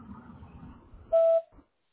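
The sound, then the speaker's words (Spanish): An answering machine beep sounds after the voicemail greeting: one loud, steady, mid-pitched tone lasting about a quarter second and standing alone, then silence. “si me dejas tu mensaje después del tono”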